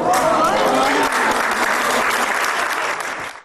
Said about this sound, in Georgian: ამ გვარის და სახელის ხსენებამ დიდი ოვაციები გამოიწვია დარბაზში.